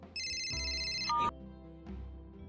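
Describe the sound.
A telephone ringtone plays a bright, high electronic ringing pattern for about a second. It breaks off into lower tonal sounds, all fairly faint.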